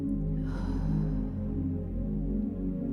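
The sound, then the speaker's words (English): A person lets out a long, deep breath during a guided meditation, a soft breathy rush that swells and then fades over a quiet, sustained musical drone. “And a deep inhale. And we let go together one more time.”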